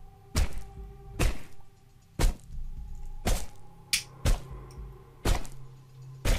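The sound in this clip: A hammer strikes a body in dull, heavy thuds that repeat at a steady pace of roughly one per second, with a lighter knock among them. The blows are fairly faint, and no voices are heard.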